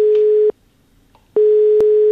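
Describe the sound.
Telephone ringback tone from an outgoing call to a newsroom contact, ringing before being answered: a steady, mid-pitched electronic tone plays, stops for under a second, then resumes and holds to the end, with no voices.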